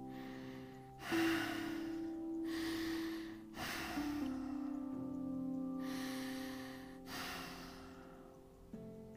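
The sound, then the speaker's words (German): Deep, slow breathing during a yoga session: several long, airy inhales and exhales follow one another in an even rhythm. The breaths are soft and faint, with a low steady hum behind them. “Noch vier tiefe Atemzüge.”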